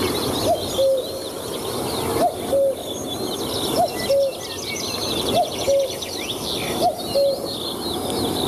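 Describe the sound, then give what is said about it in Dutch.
A cuckoo calls in a garden, repeating its falling two-note cry five times at an even pace, while other birds chirp faintly and continuously in the background. “Ja, koekoeksgeluid.”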